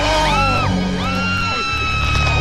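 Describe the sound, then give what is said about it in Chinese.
A terrifying scream from a horror film's full-moon transformation scene wails in long arcs that rise and fall in pitch. It stays loud and sustained over a dense, continuous background. “从这个惊悚的尖叫声当中，大家就可以感受到这个影片当中的这画面是有多么的可怖了”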